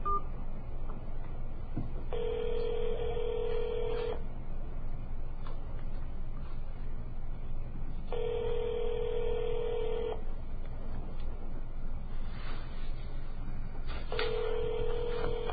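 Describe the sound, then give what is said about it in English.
Telephone keypad tones dial an extension on an office phone system: three long, steady touch-tones, each about two seconds and evenly spaced, sit over a constant low line hiss, and the last tone is cut off. “If you would like to leave a message in the general mailbox, press 0, or if you know your party's extension, you may dial it now.”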